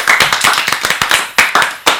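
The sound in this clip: Audience applause rewarding a correct answer in a riddle game: brisk, crisp handclaps in an uneven rhythm, swelling and easing with a few short gaps, loud and clear with no talking.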